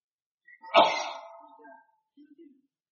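A single sneeze during an Arabic religious lesson: a sharp, loud burst that quickly trails off, followed by a few faint, low sounds.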